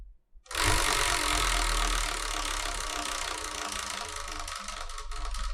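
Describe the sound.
A prize wheel being spun gives a dense, steady rattling whir that starts abruptly and runs for about five seconds, loud and alone without any voices.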